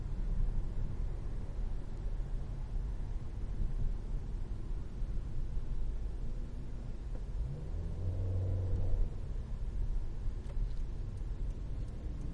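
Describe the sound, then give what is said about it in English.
A car drives through a challenging stretch of road near Portland, with a constant low engine drone and road rumble that holds steady throughout and swells slightly partway through. “Hi, sorry, I'm just driving. I'm in like a slightly challenging section.”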